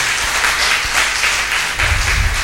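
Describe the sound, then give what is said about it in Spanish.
Applause from a class audience after a group presentation in a course session: a steady patter of many hands clapping throughout, fairly loud and even, with a slightly heavier burst toward the end. “Un aplauso aquí.”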